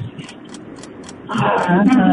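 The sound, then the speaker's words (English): A timer ticks during a pop-culture quiz game in a steady run of short, crisp ticks, roughly four a second. A voice starts talking over the second half. “All right, there's the timer.”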